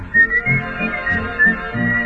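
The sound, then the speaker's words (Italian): A person whistles a tune in clear, high, bright notes, sustained and short tones alternating in a lilting melody, with lower sounds pulsing beneath. “L'altro dì, nel passeggiare. Mi son messo a fischiettare.”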